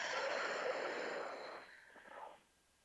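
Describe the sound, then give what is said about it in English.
A deep breath drawn in through the nose during a guided breathing exercise: a soft, airy hiss lasting over two seconds that gradually fades, swells briefly, then stops, faint and heard alone. “let's take a deep breath in through the nose, all the way to our toes.”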